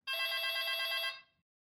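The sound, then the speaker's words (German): A telephone in the USA rings once: a bright, trilling electronic bell tone that holds steady for about a second, then fades quickly, heard alone. “In den USA erhält CIA-Agent Greg Fennell etwa zur gleichen Zeit einen Anruf.”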